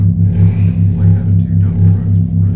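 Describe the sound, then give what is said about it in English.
Low, loud engine drone from two dump trucks running side by side: a steady rumble with a slow, even pulsing throb. It continues without break and without talk. “Two dump trucks running next to each other.”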